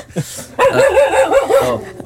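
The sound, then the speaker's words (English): A dog barks in a studio, giving a quick run of high, whiny yips and short barks in a bouncy rhythm after a brief soft sound at the start. “Oh, there's our dog.”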